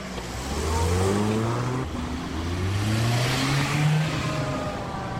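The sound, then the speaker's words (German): A car pulls away quickly from a green light, its engine revving and rising steadily in pitch, dropping at a gear change, then climbing again in a second loud surge. “So klingt es, wenn jemand flott bei Grün losfährt.”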